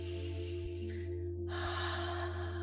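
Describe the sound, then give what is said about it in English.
A long, slow exhale through the mouth at bedtime, almost like a sigh: a soft, breathy rush of air that breaks off briefly partway through, then resumes over a low, steady hum. “Let out a long, slow breath through your mouth,”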